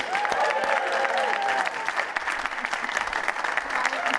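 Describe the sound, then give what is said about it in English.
Rousing applause from a live show audience welcomes politician Penny Mordaunt. Loud, dense clapping holds steady for several seconds. “Please give a wonderful, rousing political party welcome to Penny Mordaunt.”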